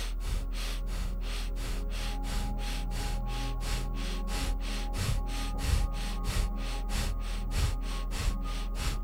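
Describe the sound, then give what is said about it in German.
Rapid, shallow breathing in and out through the nose during a breathing exercise: many quick, evenly spaced airy puffs in a steady rhythm over a low constant hum. “Und atme wieder ein durch die Nase und atme erneut in dieser Frequenz, schnell, flach durch die Nase.”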